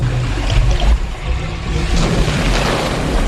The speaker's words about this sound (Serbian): Kako je to buka? O ne. Vidi šta si uradila. Voda se spušta. Ide na dole.